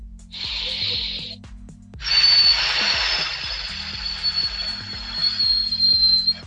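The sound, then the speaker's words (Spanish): A slow breath out through pursed lips, like whistling, during a breathing exercise: two airy hisses, a short one then a much longer one, over soft background music. “Y luego vamos a ir soltando el aire despacio por nuestra boca, como si estuviéramos silbando.”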